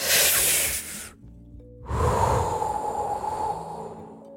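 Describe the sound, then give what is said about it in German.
Deep breath drawn in through the airways: two long, breathy rushes of air separated by a short silent pause, the first brighter and hissier, the second lower and rougher, with no talk. “Nehmt mal einen kräftigen Atemzug.”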